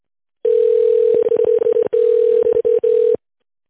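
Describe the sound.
A continuous telephone line tone sounds while a call is forwarded to a secretary. It is level and sustained, broken by a few brief dropouts and faint clicks before it stops.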